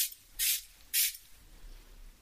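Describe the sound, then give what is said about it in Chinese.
Two short, loud hissing bursts of a hydrating facial mist spray, evenly spaced, with a bright airy spray sound and a quiet background in between. “等一下，喷一下，这个是补水喷雾”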